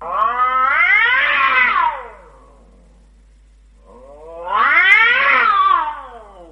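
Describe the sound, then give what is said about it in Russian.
A cat yowls after its tail is stepped on, two long, loud, wavering cries with a strained, rising-and-falling pitch, each lasting about two seconds and separated by a short silent pause. “И тут сосед наступил кошке на хвост.”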